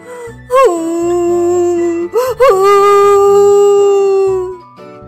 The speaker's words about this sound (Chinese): 他叹了一口气，伤心的哭了起来。